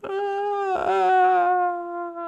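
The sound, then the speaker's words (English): A woman wails as she is released: one sustained, tonal cry that holds a fairly even pitch for over two seconds and wavers slightly midway. It is heard alone and fades a little near the end. “And you hear a faint wail as Jack's sister is released.”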